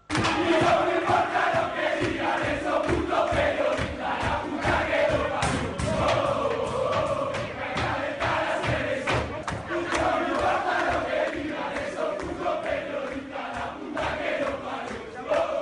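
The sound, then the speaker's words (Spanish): Football players chanting and cheering together in Argentina's locker room after a match: a loud, dense mass of voices that holds steady for the whole stretch, with rhythmic beats running through it. “Ayer en el vestuario, al finalizar el partido, se escuchaba esto. Vamos a escuchar lo que se escuchaba en el camerino de Argentina.”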